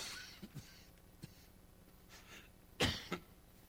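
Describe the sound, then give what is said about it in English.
A cough right into a microphone comes near the end as one sharp burst followed quickly by a smaller second burst, after a few faint breathy clicks in an otherwise quiet stretch. “it's nice when I cough into the microphone, isn't it? That's a cough that's heard around the world.”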